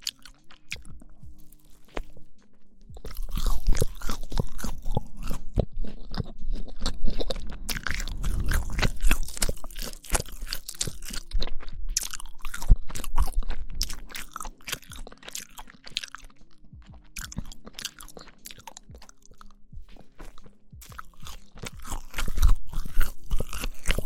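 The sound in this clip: Someone chews cake with raspberries, making many moist crunching and squishing bites in a steady, irregular rhythm. The chewing stays fairly loud throughout with no talking.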